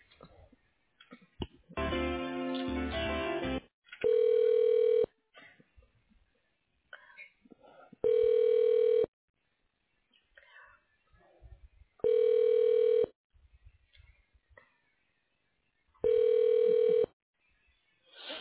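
Telephone ringback tone heard while a call is being transferred: steady tonal rings, each about a second long, repeat at even intervals of roughly four seconds, with a brief noisy burst before the first ring and no talk.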